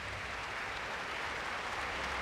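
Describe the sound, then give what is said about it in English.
Concert audience applause at the Woodruff Arts Center in Atlanta after a classical soloist's performance, a thick, continuous roar of many hands clapping at a steady, full level. “And the applause and smiles at the Woodruff Arts Center kept up until she sat down for an encore.”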